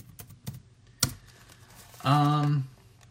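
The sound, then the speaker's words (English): A few sharp, separate keystrokes on a computer keyboard tap out at an unhurried pace. A short voiced hum follows. “Let me type that in for a second.”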